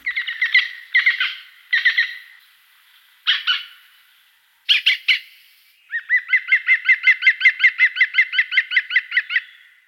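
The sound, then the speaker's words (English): Green woodpecker laughing call: a few separate harsh, clipped calls spaced by pauses, followed by a long, even run of many loud, quick repeated notes at a steady pitch. “Green woodpeckers fill the air with demented laughter.”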